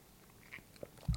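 Small sips of a Jameson cold brew drink, a whiskey-coffee mix of 30 percent alcohol, heard as a few quiet, brief slurping and swallowing sounds, the last one a little fuller.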